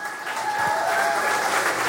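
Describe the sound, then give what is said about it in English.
Audience applause after guests are thanked: a steady, fairly faint wash of many hands clapping at an even level from start to finish. “Round of applause for these guys.”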